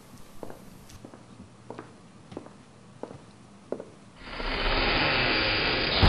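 Footsteps of people walking out of a church, a slow series of soft, evenly spaced steps, followed by a loud, steady rushing noise that takes over and continues to the end.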